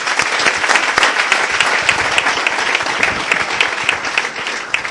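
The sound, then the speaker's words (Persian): Loud, sustained applause from an audience at an addiction-recovery gathering, dense rapid clapping that keeps up at full strength throughout with only slight swells. “متشکرم، مرسی، دست بزنیم.”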